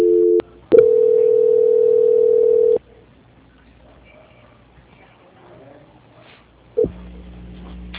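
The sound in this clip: Telephone tones on a line during a call transfer: a brief tone opens, then a steady, level tone holds for about two seconds before the line goes quiet, and a lower steady tone returns near the end.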